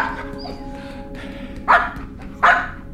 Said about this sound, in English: Dog. Good boy. Dog. Good boy.